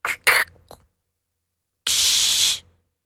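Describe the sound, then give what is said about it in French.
A voice imitates a soda bottle being opened: a few short breathy puffs come first, then a pause, then a steady, bright hiss lasting under a second that cuts off cleanly. “Une bouteille de soda qu'on ouvre et où ça...”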